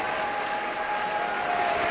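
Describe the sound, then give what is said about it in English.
A concert audience gives a standing ovation after a violin concerto with an orchestra. Dense, continuous applause stays at a steady level throughout. “The ovation continues as Hadalek turns to the orchestra and applauds them.”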